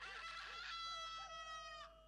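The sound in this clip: A rooster crows once in a single long, strained call that holds and then breaks off abruptly, with no voices.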